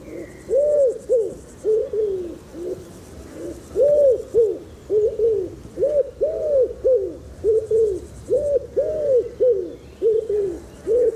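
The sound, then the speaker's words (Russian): Cooing of a male common wood pigeon calling to a female in a forest: loud, low, hooting phrases repeated steadily in a rhythmic pattern, with only a faint background hiss. “И вот давайте я предлагаю сейчас послушать, как самец вяхря в лесу приглашает на свою территорию самку.”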